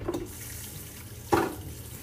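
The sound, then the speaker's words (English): Water running from a tap as hands are washed before a tomato is sliced for flatbread pizza. A steady soft hiss of flowing water is broken by a short, louder splash near the end. “First, I'm going to wash my hands.”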